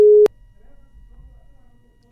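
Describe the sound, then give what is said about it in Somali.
A single short telephone busy-tone beep sounds as a listener's phone line cuts off during a call-in. The loud, steady tone stops abruptly, leaving only a faint low hum. “Qadka telefoonka ayaa dhegeystayaasi ka go'ay.”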